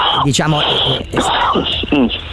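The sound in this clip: A man who smokes a pack of cigarettes a day coughs and clears his throat in hoarse, rough bursts, mixed with groaning, voiced throat sounds.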